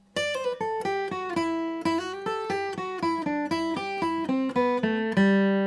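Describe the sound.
A guitar lick plays as a quick, steady run of many plucked notes, ending on an open G note that rings out and sustains.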